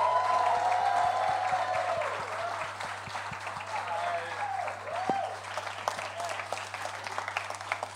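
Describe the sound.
Audience applause and cheering as a special guest is welcomed onto a stage, a dense, loud burst of clapping that thins out over several seconds, with a voice briefly heard at the start.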